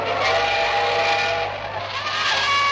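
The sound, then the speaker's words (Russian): A steam locomotive pulls in on a train arriving from Berlin, giving a steady, loud rumbling hiss with sustained whistle-like tones running through it. “Паровоз, увитый гирляндами цветов и алые полотнища, показался вдали.”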